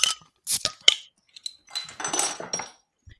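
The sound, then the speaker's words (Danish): A bottle of Ørbæk pilsner beer is opened amid a few sharp glassy and metallic clinks, followed by a longer stretch of rattling and scraping, with no voices. “Skal vi åbne øh, flasken? Ja, lad os det, lad os det.”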